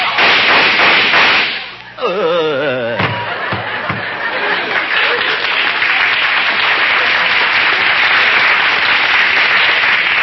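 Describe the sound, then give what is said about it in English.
Gunshots fired from a gun in an old drama scene: a voice, then a few sharp cracks, followed by a long, steady roar of crowd noise like applause that carries on loudly to the end. “We'd better get out of here. Some of those shots came from the audience.”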